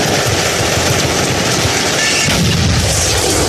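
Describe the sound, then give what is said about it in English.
Gunfire in a shootout at a street intersection: a dense, continuous barrage of loud crackling shots that blur together into a steady roar with no clear gaps. “All units, we have an ongoing shootout at 24th and North Park Street.”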